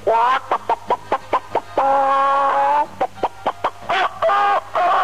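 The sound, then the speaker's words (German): Hens cluck on a farm in the morning: a run of short, loud, evenly spaced clucks, then a drawn-out cackle, then more clucks and cackles, with no talk. “einmal habe ich eine Nacht auf einem Bauernhof gezeltet und es war sehr, sehr schön, weil dort auch in der Früh die Hühner gackern.”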